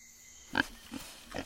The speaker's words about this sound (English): A tiny black pig visits McGregor's bower.